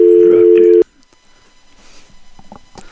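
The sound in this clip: A single steady electronic telephone tone signals an incoming call on a call-in radio show. It sounds loud for under a second, then cuts off abruptly, leaving faint background talk.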